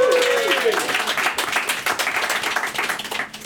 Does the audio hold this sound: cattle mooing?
no

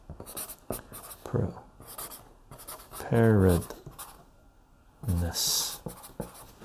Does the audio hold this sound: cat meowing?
no

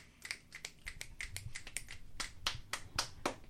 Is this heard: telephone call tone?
no

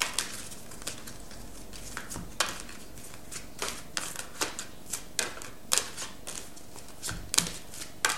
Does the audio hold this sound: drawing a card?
yes

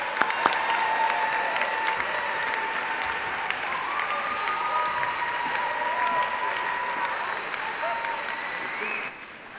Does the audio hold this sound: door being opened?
no

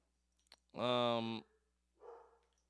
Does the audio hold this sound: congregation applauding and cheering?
no

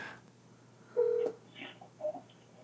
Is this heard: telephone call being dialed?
yes

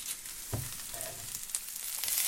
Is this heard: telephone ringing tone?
no

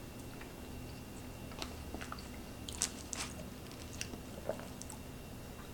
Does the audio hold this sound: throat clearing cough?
no

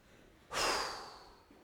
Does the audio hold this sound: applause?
no

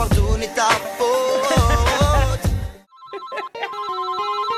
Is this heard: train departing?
no

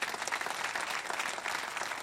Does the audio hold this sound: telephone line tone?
no

